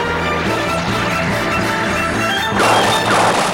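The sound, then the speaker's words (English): Heavy crashing impacts from a cluster of shots striking starship shields in a space battle form a dense, loud, continuous barrage, swelling into a harsher, brighter burst near the end. “A cluster of shots penetrated the shields.”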